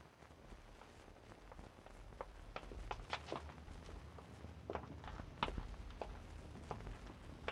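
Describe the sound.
People walk at night on Christmas Eve, their footsteps a quiet, many-step patter that stays steady and unhurried with no voices over it.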